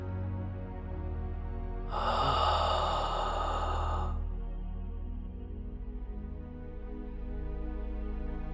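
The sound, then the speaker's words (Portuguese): A single long, airy breath taken during a guided breathing exercise for emotional release. It rushes for about two seconds over a steady low background hum, then fades back to quiet. “Inspira, segura e solta.”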